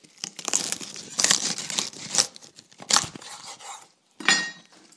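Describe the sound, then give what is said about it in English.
Knife chopping the ends off very early British asparagus: a few crisp, irregular snapping cuts with short rustles between them, and a louder burst near the end after a brief pause. “at the bottom of the fridge whilst I've been looking for some chili is some asparagus, some British asparagus. It's very, very early. I'm just going to chop the ends off these.”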